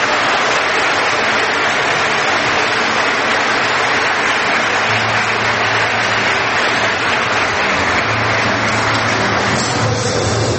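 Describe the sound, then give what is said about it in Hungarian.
Sustained applause from an audience at a sermon about Jesus, a loud, even, hissing wash of many hands clapping that holds steady throughout with no speech over it. “És tapsoljuk most meg őt.”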